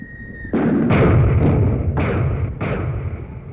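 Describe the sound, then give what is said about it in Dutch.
Enemy shellfire explodes in four heavy, booming blasts, each with a sharp onset trailing into a rumbling decay, loud and without voices. “Die vijand verderop schiet wel een beetje onnauwkeurig. Daar komt er weer een.”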